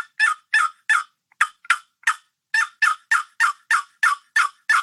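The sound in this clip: Turkey yelps from a hunter imitating a wild turkey's calls: a long, evenly paced series of short, raspy, fairly loud notes, with no talk over them.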